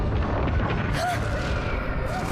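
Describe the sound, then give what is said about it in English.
Fire roaring and masonry falling inside a collapsing building: a loud, continuous, dense rumble with no distinct separate crashes. “The building is collapsing as Bond tries to reach her”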